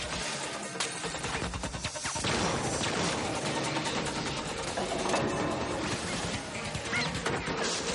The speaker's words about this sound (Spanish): Dispara a un rival que intentaba llevarse la pistola.